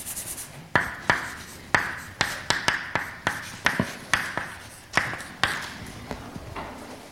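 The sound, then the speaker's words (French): Writing during a mathematics lecture: many sharp taps and short scratchy strokes in an irregular rhythm, each stroke fading quickly, clear and fairly loud with no talk over them. “Donc j'écris les choses comme ça.”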